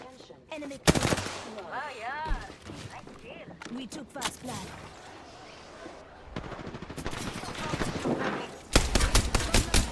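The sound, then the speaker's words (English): Gunfire in a video game: loud bursts of rapid shots and scattered single cracks, with a player talking over the action. “Oh, somebody else shot me.”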